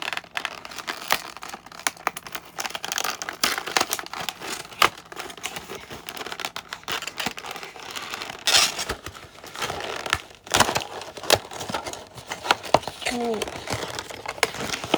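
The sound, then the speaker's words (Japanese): Crinkling plastic and tearing packaging as a toy is unboxed, with many sharp rustles and clicking snaps throughout and a person talking over the handling. “なので、早速おもちゃの方を開封していきたいと思います。”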